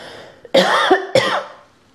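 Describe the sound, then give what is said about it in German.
Two harsh coughs from a person, the first longer and throaty, the second coming shortly after, then fading into quiet. “sorry, ich muss kurz husten”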